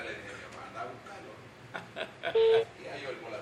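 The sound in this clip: A ringback tone on a phone call sounds as a single short, steady, low-pitched beep amid quiet talk and brief chuckling.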